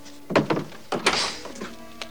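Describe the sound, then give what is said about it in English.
A bedroom door being opened by a woman getting out of bed, heard as a few dull knocks and clunks of the handle and frame, with light rustling between them. “Straightening her nightie, she gets out of bed and goes to the door.”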